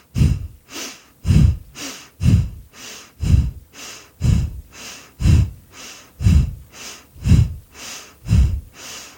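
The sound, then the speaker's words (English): Forceful breaths in a breathing exercise, a steady run of loud, evenly spaced huffs about one per second, each a rushing burst of air, with no talking. “a final 10 forceful breaths before letting that go”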